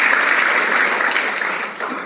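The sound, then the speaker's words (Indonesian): Loud applause from a lecture audience, thick and continuous clapping from many people that stays strong and steady before easing slightly near the end. “tepuk tangan untuk kita semua”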